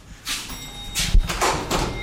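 A front door opens at a home in a small mountain village in southeastern Turkey, heard as a few soft, faint rustles and knocks with one brief, heavier thud near the middle.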